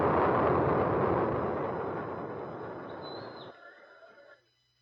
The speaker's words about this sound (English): Lift off! It's going!